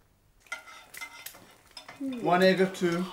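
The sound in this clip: Utensils clink and scrape in a pan while eggs cook for breakfast. A few faint, scattered knocks lead into denser clatter toward the end.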